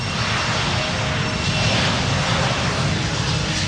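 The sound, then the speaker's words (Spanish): An airplane taking off on a runway gives a loud, steady, broad engine roar that holds level throughout. “La torre de control indica al piloto cuándo debe dirigirse a la pista de despegue y allí se realiza una de las maniobras más delicadas, el despegue.”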